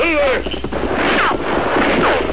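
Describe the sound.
Gunfire aimed at riders on a trail cracks out in a dense, loud, continuous mix, with several shots landing over other layered sounds.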